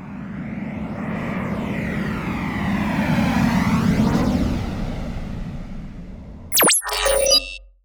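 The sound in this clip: Airplane engine drone inside a flight cabin, a steady low rumbling roar with a slowly shifting whine, broken at the end by a brief burst of bright electronic tones.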